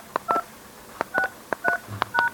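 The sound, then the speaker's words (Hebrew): Keypad tones dial an extension number into an automated phone menu: four steady two-note beeps in an uneven rhythm, each preceded by a faint key click. “אם ידוע לכם מספר השלוחה, אנא הקישו אותה כעת.”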